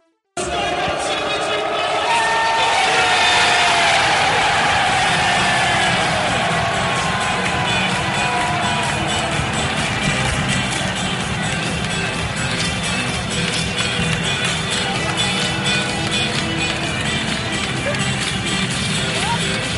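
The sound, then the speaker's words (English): Football fans roar and cheer as their club, Nottingham Forest, wins promotion back to the Premier League after 23 years. A dense, loud crowd noise of shouting and cheering holds steady for the whole stretch. “That was the sound of Nottingham Forest regaining their place in the Premier League after 23 years.”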